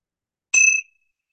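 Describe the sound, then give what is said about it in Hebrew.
A single strike of a meditation bell rings out alone, a bright clear tone that sustains briefly and then fades into a soft decaying shimmer. “את התרגול, מקווה שישמעו את הפעמון, ממש לקחת את הזמן.”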